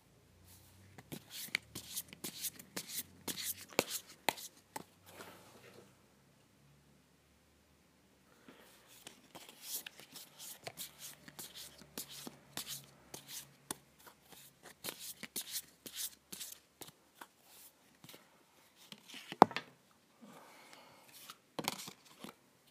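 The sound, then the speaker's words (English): Tarot cards being shuffled in two long stretches of quick, crisp riffling and flicking, faint overall, separated by a short pause, with no talk. “So, I will be starting the reading now.”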